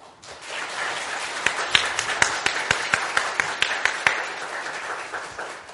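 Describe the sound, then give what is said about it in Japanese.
Congregation applauding in church after a prayer: a wash of many hands clapping that swells, sustains with individual sharp claps standing out, then tapers away. “どうぞ拍手を持って”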